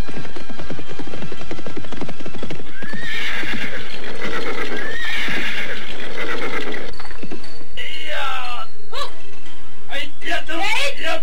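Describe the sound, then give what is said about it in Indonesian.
Horses of a cavalry troop neigh and whinny while hooves clip-clop, with several loud, high whinnies that swoop in pitch over a dense, continuous clatter of movement. “serombongan pasukan berkuda datang ke tempat mereka. Setelah menambatkan kuda mereka”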